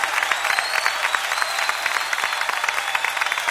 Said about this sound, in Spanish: aplauso fuerte al Señor.